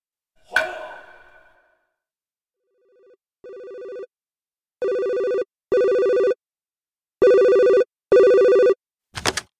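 A telephone rings for an incoming call from a toilet repair company. After a short clattery hit, the ring sounds as a series of loud, steady, bright electronic bursts, several in close pairs, ending with a brief rattle.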